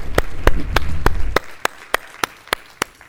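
Hand claps greet guests being welcomed at a church service: about ten sharp, evenly spaced claps in a steady beat, with a low rumble beneath the first half.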